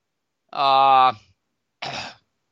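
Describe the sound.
A person gives a short voiced throat-clearing sound and then, after a pause, a single brief, breathy cough, both loud against silence.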